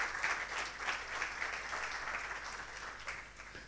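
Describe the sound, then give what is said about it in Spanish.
An audience claps hands together during a bilingual church prayer service, a faint but steady patter of many hands that continues evenly for nearly four seconds with no talk over it. “Let us clap our hands if you are still together. Dele un aplauso, dele un aplauso.”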